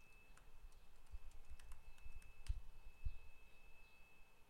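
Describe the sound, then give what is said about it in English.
Typing on a computer keyboard: many soft, irregular key clicks at a low level over a faint steady hum. “I can't type and talk at the same time.”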